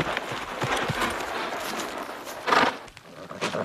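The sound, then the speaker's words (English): A horse galloping, with its hoofbeats clopping in a fast, steady rhythm and swelling into a louder burst partway through. “Oh, boy, easy, Star. Here, I broke off this twig of a branch on my way from the house. Use it to keep Star at top gallop.”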